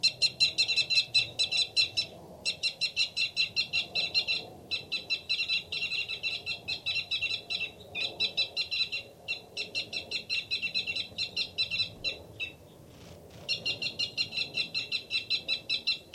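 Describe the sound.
A male bird gives a rapid fight call: many fast trains of high, sharp chirps, repeated in quick bursts with short gaps between them, fairly faint and alone throughout.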